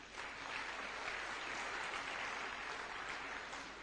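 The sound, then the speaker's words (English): Audience applause as a CEO is introduced on stage, faint but continuous clapping with a steady, even texture throughout. “An accomplished person, please put your hands together for CEO of IPMC.”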